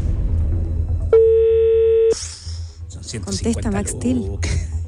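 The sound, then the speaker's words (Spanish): A telephone rings on an outgoing call: a single steady electronic ring tone lasts about one second, then stops as voices begin talking. “Ahí estamos, ya. Estamos llamando a Max Steel.”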